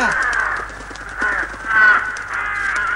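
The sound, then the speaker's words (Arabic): Crows caw around a house, with many harsh, overlapping calls that keep up steadily throughout and swell louder in places. “هيا هيا هيا ابتعدوا أيها الطيور”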